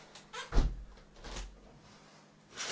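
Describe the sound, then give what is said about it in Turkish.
A window fly screen being opened, heard as a solid low thump followed by a few softer knocks and scraping movements, all fairly faint with no talk. “Abi pencerede şey var. Sineklik var. Bak sineklik bu. Açıyor sinekliği.”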